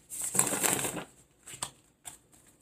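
Playing cards are shuffled during a card reading: a long, crisp riffling burst is followed by a few shorter, faint rustles and flicks.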